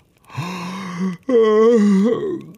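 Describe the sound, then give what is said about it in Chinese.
A person yawning, voiced as a long, moaning yawn in two drawn-out, breathy stretches split by a brief catch; the second stretch starts higher and sinks in pitch toward the end. “罗恩打了个哈欠说”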